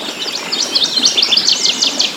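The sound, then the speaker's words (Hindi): Birds chirp and sing beside rivers winding across flat plains, with many rapid, high, bright calls overlapping in a continuous stream. No voices are heard. “इस सुरम में वातावरण को और भी संगीतमय बना देता है पक्षियों का कलरव।”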